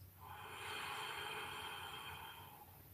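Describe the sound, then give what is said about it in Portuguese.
A slow, deep inhalation during a guided breathing meditation, heard as a soft, airy breath that swells steadily and then eases off over about three seconds, faint and alone with no talking. “E vamos inspirar profundamente.”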